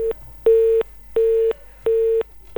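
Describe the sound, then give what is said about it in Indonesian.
Telephone busy tone after a call disconnects: loud steady beeps of one unchanging pitch in an even on-off rhythm, with three full beeps and clipped ones at the start and end. “Iya, terputus nih ya. Tadi tut tut tut tut ya bunyi teleponnya ya.”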